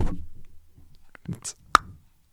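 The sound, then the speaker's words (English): A single quick half knock on a door: one sharp, bright rap standing out over faint low murmuring, with nothing following it. “I call it knock tease, and that's where you only give a half knock on a door.”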